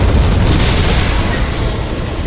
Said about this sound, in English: The rockets hit the wheeled tank in a double explosion that deafened Thomas, and shrapnel sprayed outward from the twin strikes.